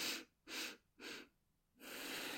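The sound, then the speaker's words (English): A person demonstrating an automatic double or triple inhale: three short, sharp breaths in quick succession, a brief pause, then a longer sustained breath. The breathing is clear and breathy, with no speech. “their nervous system and their breath does this kind of automatic double or triple inhale. So it goes a little bit like this.”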